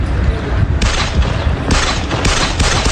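Gunfire from a shooting attack, caught on security and police body cameras: several sharp shots burst out of a harsh, continuous wash of distorted noise, coming at uneven intervals and staying loud throughout.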